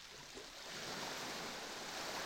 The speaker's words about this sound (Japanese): 波がもう寝ているあなたの髪を濡らしてる。